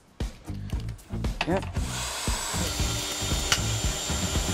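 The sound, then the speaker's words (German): A power drill drives a screw into a wooden board. A short stretch of talk comes first, then the drill gives a steady, loud whine over broad noise until the end. “Kommt hier oben an den Strich und dann kommt in jedes dieser Bretter eine Schraube.”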